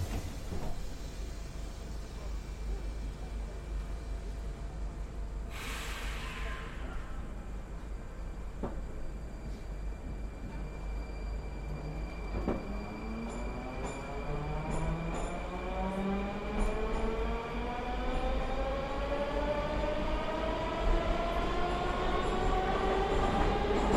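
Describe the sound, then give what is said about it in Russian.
A Moscow metro train pulls away from a station, its steady rolling rumble joined by an electric motor whine that climbs steadily in pitch as the train gathers speed. “осторожно. Двери закрываются. Следующая станция Смоленская. The next station is Смоленская.”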